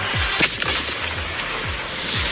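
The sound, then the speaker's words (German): A buried aerial bomb, set upright in a large dug earth pit by bomb-disposal specialists, detonates with a single short, dull, muffled thump over a steady noisy background. “deshalb haben die Spezialisten vom Kampfmittelräumdienst ein großes Erdloch ausgehoben, da dann die Bombe hochkant rein, damit die Splitter nur in die Erde fliegen können. Dann wurde gesprengt.”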